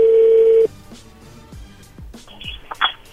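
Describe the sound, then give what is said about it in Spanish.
A steady telephone tone cuts off, followed by a series of clicks, thumps and short electronic tones as a call line reconnects. “A ver, entró ahí de nuevo la llamada.”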